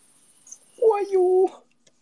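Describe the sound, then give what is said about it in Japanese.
A human voice imitates a baby cricket with a single squeaky, nasal held tone lasting under a second. The tone is fairly loud and stands alone, with a faint click just before it. “コオロギの赤ちゃんの声真似します。”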